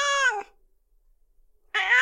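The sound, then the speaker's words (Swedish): Two loud cat meows separated by a quiet pause of over a second, each a drawn-out, harmonically rich cry. “Hör ni katterna? Nej men alltså! Åh, herregud. Gud, jag trodde att det var människor i bakgrunden.”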